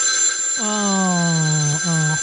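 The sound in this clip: A telephone rings with a steady, buzzy electronic tone: one long ring, then a short second burst.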